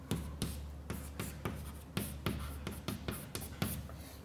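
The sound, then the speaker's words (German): Handwriting scratches out an equation during a physics lecture in many short, quiet scraping strokes that repeat in a steady rhythm with no talk over them. “ich schreibe es nochmal hin, damit es nachher klar bleibt.”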